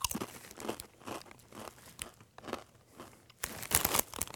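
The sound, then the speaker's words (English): Blazin' Buffalo Ranch flavoured Doritos tortilla chips crunch between the teeth in a steady run of crisp, crackly bites. The chewing is irregular, with a louder burst of crunching toward the end and no talk over it. “All right, let's try this. Blazin' Buffalo Ranch Doritos.”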